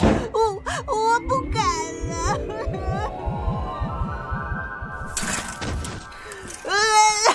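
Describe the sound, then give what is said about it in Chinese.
A boy cries in wavering, high wailing sobs at the start and again at the end, over a rhythmic low throbbing pulse. “男子汉大丈夫，你这点小事哭什么哭啊？”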